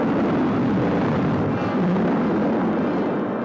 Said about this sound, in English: Rocket 1, third stage. Fire.